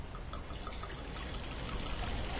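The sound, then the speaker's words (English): Liquid poured into a glass for a rum and coke: a faint, steady trickling stream with a soft splashy hiss throughout. “I just realized I like never pour my own drink.”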